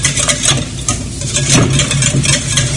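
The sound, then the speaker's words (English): A whisk stirs hollandaise sauce of butter and egg yolks in a pan over low heat, making a loud, continuous scraping and swishing with fast, repeated strokes. “And now we're going to keep whisking it till the sauce thickens and it's able to coat the back of a spoon.”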